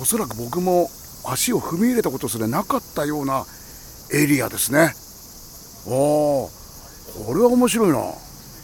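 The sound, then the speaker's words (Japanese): Cicadas singing in a Shinto shrine precinct in Hakata on a hot day: a steady, high, shrill insect drone runs through the whole clip beneath a man talking. “境内にはセミの声、いいですね。”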